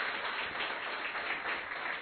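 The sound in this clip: An audience applauds to thank a speaker at a gathering. The clapping is steady, dense and somewhat muffled, holding an even level from start to finish.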